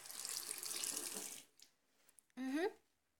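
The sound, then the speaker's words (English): Water runs from a tap into a sink as a steady hiss for about a second and a half, then stops, followed by a brief rising squeak, all faint. “I just need to use this tap here by the sink.”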